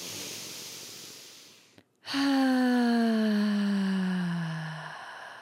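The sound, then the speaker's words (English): A deep breath during a guided forgiveness meditation: a long, airy inhale, a brief pause, then a voiced, sighing exhale that slides steadily downward in pitch and slowly fades, with no talk over it. “Let's take that deep breath. Once more.”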